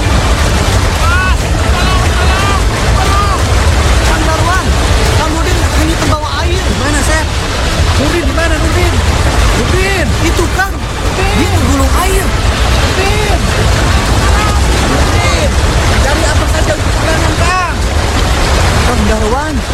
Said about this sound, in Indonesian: banjir bandang